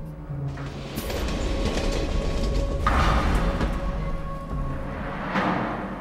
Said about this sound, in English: Almost 2 kilometers behind the engine, the caboose of train 413 finally lurches to a stop.